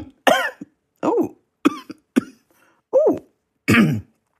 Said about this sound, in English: Something was in my throat. I'm so sorry there. I was just something in my throat and I had to get it out.